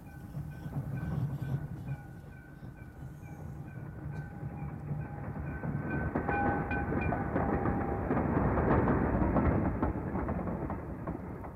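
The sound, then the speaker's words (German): A train arriving at a terminal station makes a continuous rolling rumble that slowly swells in loudness. Steady high whining tones ring above the rumble for much of its length, and there is no talk. “Was ist jetzt das? Ach, der Zug vor der Endstation.”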